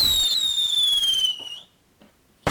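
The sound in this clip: A firework sound effect: a loud, high whistle falls in pitch for about a second and a half, goes quiet, then ends in a sharp bang.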